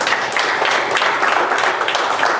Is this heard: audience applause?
yes